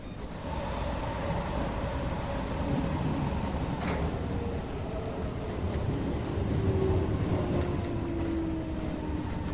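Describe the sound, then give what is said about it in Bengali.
A metro train pulls into a station late at night and stops: a loud, steady rumble throughout, with a faint whining tone gliding downward in pitch as it slows. “রাত নটা চুয়ান্ন স্টেশনে metro এসে থামল তারপর যাত্রীরা যে যার মতো উঠে পড়ল মেট্রোতে”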